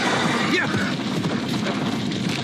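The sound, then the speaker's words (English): A brief horse whinny cuts through loud, chaotic crashing and rumbling as horses escape a burning barn during a fire, the noise staying dense and continuous. “The horses are out of the barn. They're all right.”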